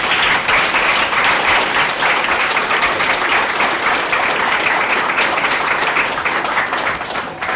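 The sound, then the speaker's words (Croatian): Strong audience applause at a gathering, with many hands clapping in a dense, even wash that holds steady and loud for the whole stretch. No voices rise above it. “Ja mislim da ovo njeno pismo zaslužuje jedan jak aplauz.”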